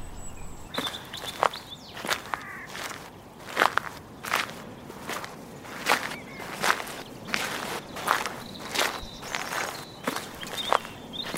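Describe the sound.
Footsteps walking through woodland, a steady rhythm of many crunchy steps on the forest floor, moderately loud with no talking.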